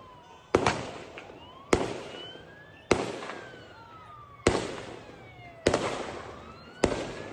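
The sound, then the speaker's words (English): Six loud shotgun blasts fired in rapid succession during a shooting at a crowded beach Hanukkah celebration, each a sharp bang with a short ringing decay, spaced roughly a second apart. “Sajid, firing a shotgun rapidly.”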